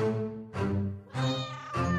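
A cat meows four times in quick succession. Each cry is loud, drawn-out and rich in harmonics, with nothing else heard.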